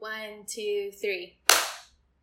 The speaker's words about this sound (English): Okay, so on the I'll go 1, 2, 3, and we'll clap, okay?